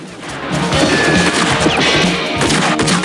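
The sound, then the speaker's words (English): Gunfire erupts in a film shootout as two gunmen fire down from the balcony of a red brick industrial building. Many rapid, loud shots and crashing impacts pile up in a dense, continuous barrage. “Two punks shoot down at Manny from the balcony of a red brick industrial building as Manny runs out of a doorway.”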